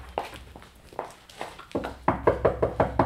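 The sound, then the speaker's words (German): Knocking on a house door: a few spaced, fairly soft raps come first, then a quicker run of louder, sharper knocks toward the end, with no voices. “Wenn sie noch im Bett liegt, klopfen Sie mal an der Tür da.”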